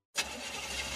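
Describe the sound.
A car engine struggling as it starts: a sudden loud onset, then a steady, rough, harsh roar that holds for about a second, heard alone without talk.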